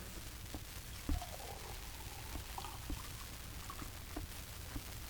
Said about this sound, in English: Each little gurgle and glug is a definite sound. You don't get the impression that a dam has broken somewhere. It's really water being poured, and that's exactly what it sounds like.